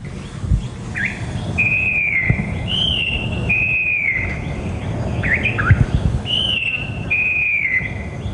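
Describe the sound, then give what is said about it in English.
A falcated wren babbler sings loudly: several clear, high whistled phrases, some sliding and some broken into quick notes, come at short intervals over a steady low background rumble. “A loud song throughout the cuts coming from the falcated wren babbler”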